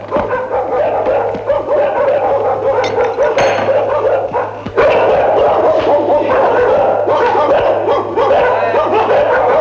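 An injured dog yelps and barks repeatedly, with whimpering mixed in, busy and loud throughout, over a steady low hum.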